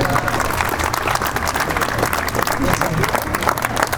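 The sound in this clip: Guests applaud the players and staff at the close of a sponsors' reception, with thick, continuous clapping held at a fairly even, strong level throughout.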